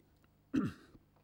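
A single cough or throat clearing, short and fairly loud, bursting out once and fading within a fraction of a second against an otherwise quiet background.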